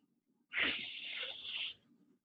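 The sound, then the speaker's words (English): A deep breath drawn in sharply, a loud breathy hiss lasting over a second that starts abruptly, holds steady and then cuts off, alone with no talk around it. “I have to take a deep breath because I never know what's going to come out of my mouth.”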